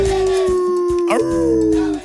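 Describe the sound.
A wolf howls in one long, loud, sustained wail. Its steady tone wavers briefly partway through and then holds before fading out at the end.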